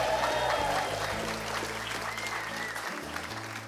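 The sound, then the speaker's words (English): Audience applause at a live evening show at the Museum of Commerce on the historic Pensacola campus of the University of West Florida: dense, steady clapping that stays loud throughout and eases slightly toward the end. “What a great audience. Give yourselves a big hand.”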